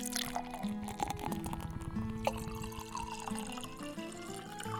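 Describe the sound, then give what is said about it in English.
Wine and ale pouring into mugs, a steady gurgling stream of liquid with a ringing, tonal resonance from the filling vessels, continuous and fairly loud throughout. “She gathered the mugs and began filling them with wine and ale.”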